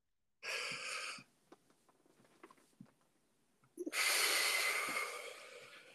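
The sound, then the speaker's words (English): A person takes a deep breath, heard as a short rush of air followed by a longer, louder airy breath a few seconds later, with quiet rustles between. “do you want to take a deep breath right now”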